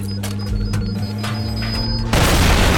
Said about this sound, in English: Whoa, bomb.